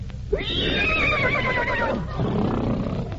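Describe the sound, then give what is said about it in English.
A horse neighs once, a loud, long quavering whinny with a high shaking pitch that slowly slides downward, followed by quieter background noise. “That's a horse.”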